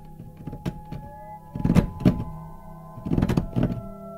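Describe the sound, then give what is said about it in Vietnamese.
Hollow knocking and clattering thuds from inside a coffin: a few scattered light knocks, then two heavier clustered bursts, over a low sustained drone with no voices. “bỗng nhiên từ trong gian giữa vọng ra tiếng lục cà lục cục. Lục cà lục cục, nghe dị hợm lắm.”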